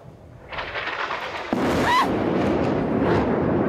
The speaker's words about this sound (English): While Yumna was reporting from Gaza City, an Israeli airstrike hit the tower directly behind her